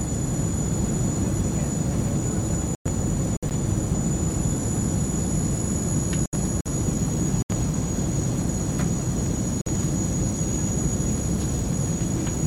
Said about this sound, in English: Dames en heren, we naderen de luchthaven Marco Polo van Venetië.